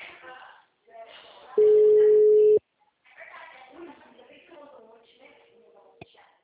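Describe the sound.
One steady, even telephone ring tone lasts about a second on an outgoing call from a bank, set between stretches of people talking, with a short click near the end.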